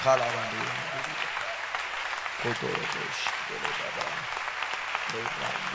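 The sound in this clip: A church audience claps its hands during worship, with a steady wash of clapping and voices singing over it at intervals.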